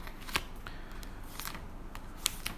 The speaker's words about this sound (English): That's me peeling the blue tack off. Don't want to get all the pictures stuck together.